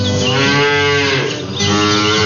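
A cow named Mimosa moos at milking time, one long, loud, deep lowing call with rich harmonics that dips briefly near its middle and then carries on steadily.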